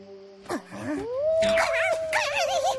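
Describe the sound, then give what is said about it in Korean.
A wolf howls nearby during an outdoor camping scene: a long, sustained wail that rises and then holds steady, with other rustling sounds underneath. “아까부터 늑대 울음소리가 들려요.”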